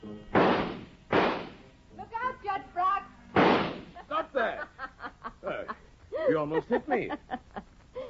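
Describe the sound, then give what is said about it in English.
Pistol shots ring out in a radio drama as three sharp, loud bursts: two close together, then a third after a pause. Voices speak and chuckle between them. “My pistols, George. Pistols? General Gabler's pistols. If I can't do anything else, at least I can shoot.”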